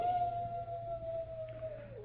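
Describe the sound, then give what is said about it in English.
A jackal howls in the wilderness at night, a single long, thin, steady wail that sinks lower at its end, fairly faint and alone. “Jackal howls a warning”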